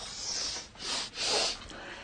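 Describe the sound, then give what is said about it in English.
Sharp nasal snorting of a line of cocaine through a rolled-up dollar bill: a few quick, breathy inhalations in close succession, quiet and alone. “She rolls up a dollar and snorts the line through it.”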